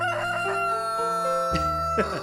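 A rooster crows, a loud, drawn-out call of held, shifting tones that fills the whole clip with no other sound.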